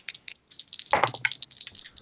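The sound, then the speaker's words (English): Dice clatter for a tabletop sanity roll, a quick run of sharp light clicks and taps with a denser rattling burst in the middle, fairly faint and without talk. “I need a second sanity roll. Oh no. Oh, come on, dice.”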